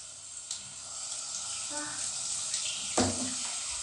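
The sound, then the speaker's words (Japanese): Shower water runs as a faint, steady hiss of spray throughout, with only small shifts in the flow. “じゃあシャワー出していきます”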